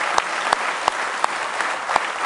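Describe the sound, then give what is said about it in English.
A church audience applauding in praise during a worship service: dense, continuous clapping from many hands, with a steady rhythmic beat of louder claps pulsing through the wash at an even tempo. “Let's give Him one more hand clap of praise tonight if you love Him.”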